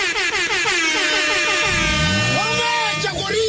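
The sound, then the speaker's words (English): Loud air horn sound effect blaring in sustained, harmonic-rich blasts that run through the whole clip. Toward the middle a lower swooping tone sweeps in beneath it. “another air horn there of course”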